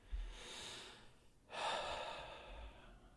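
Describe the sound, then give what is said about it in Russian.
Slow, airy breaths during a guided breathing exercise, quiet and close. A soft, drawn-out breath comes first, followed by a stronger, fuller exhale that swells and then gradually fades. “И на вдохе усилив, на выдохе выдыхаем.”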